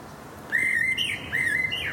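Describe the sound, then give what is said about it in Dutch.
A blackbird sings early in spring, practising its song before the season begins. Two short, clear whistled phrases sound alone, each rising and wavering in pitch, with a brief gap between them. “Nou, veel merels moeten in aanloop naar de lente hun liedjes weer een beetje oefenen.”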